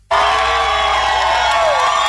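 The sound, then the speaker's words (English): Loud crowd cheering and whooping erupts at the Apple store on Fifth Avenue in New York City as Tim Cook arrives for a new iPhone launch. The cheering starts suddenly and holds steady throughout. “Well, cheers. Early this morning in New York City as Tim Cook turned up at the Apple store on Fifth Avenue with the new iPhones.”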